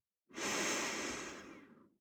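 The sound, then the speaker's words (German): A single audible exhale through a slightly open mouth: a soft, breathy rush that swells quickly, then thins and tapers away over about a second and a half, heard alone without talking. “Ausatmen durch den leicht geöffneten Mund, vielleicht hörbar.”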